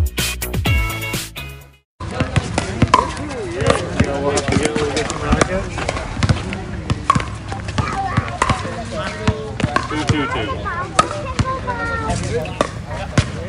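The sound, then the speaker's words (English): Pickleball play: paddles strike the ball in many sharp, hollow knocks at an irregular rally rhythm, with voices murmuring underneath. “That right there, that's the sound of one of the most popular sports in the province that is taking over tennis courts everywhere. It is pickleball.”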